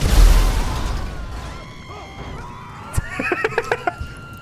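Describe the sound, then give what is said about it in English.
Vehicles blowing up in a video game: a loud explosive burst at the start that decays into rumble, followed by a series of high, rhythmic whinny-like pulses. “Functions. Blow up all nearby vehicles. And then we have some functions. Blow up all nearby vehicles”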